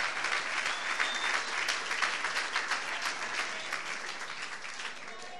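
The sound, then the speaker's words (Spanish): A church audience applauds during a sermon: a dense, steady wash of many hands clapping that stays fairly even and eases off slightly toward the end. “Ahí va un aplauso.”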